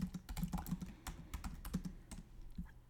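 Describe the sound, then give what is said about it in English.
Faint typing on a computer keyboard to note something down, many quick soft key clicks in a steady, irregular stream. “Ooh, that's good. Writing it down.”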